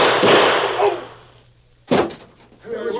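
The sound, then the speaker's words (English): Gunshots in a gunfight between two men: a couple of sharp, loud blasts, the first trailing off before a brief quiet gap and a second crack, with a voice stirring afterward. “Gunfight.”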